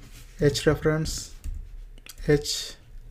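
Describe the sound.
Typing on a computer keyboard while writing code, with a few brief clicking bursts under a person talking.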